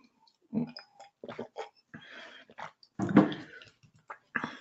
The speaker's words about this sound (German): Ein Schluck trinken noch mal kurz.